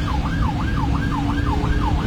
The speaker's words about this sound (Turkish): Siren ve korna işe yaramayınca ambulans sürücüsü bu kez anons yaparak yol istedi.